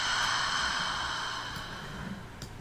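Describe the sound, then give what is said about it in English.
A slow, deep breath drawn in and let out during a guided relaxation: a soft, airy rush of breathing that is steady at first and eases off toward the end. “I want to welcome you to taking a nice deep breath in. and out.”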